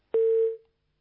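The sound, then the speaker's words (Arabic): A single short telephone line tone sounds as a call drops. It starts with a click, then holds one steady mid-pitched beep for about half a second before fading into silence. “يبدو أن الاتصال انقطع”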